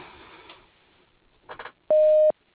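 A voicemail beep sounds as one loud, steady, mid-pitched tone held for just under half a second. It follows a stretch of faint background noise and a short soft clatter.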